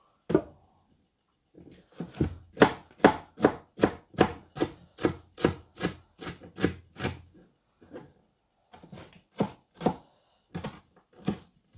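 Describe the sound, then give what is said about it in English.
A knife finely slices a single chili pepper on a board for a curry, making many quick, evenly spaced crisp chops in a steady run, then a short pause before the rhythmic slicing resumes. “Now, because I'm only using one, I'm going to slice this as fine as possible because I want it to go through the curry.”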